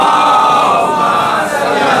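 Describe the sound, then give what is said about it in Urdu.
A crowd at a gathering loudly chants the salawat slogan to welcome a guest, a dense roar of many voices held at full volume throughout. “آئیے میں گزارش کر رہا ہوں یہی ماحول بنائے رہیے گا. جناب علی عباس کناڈیا صاحب سے تشریف لے آئے باواز بلند نعرہ صلوات.”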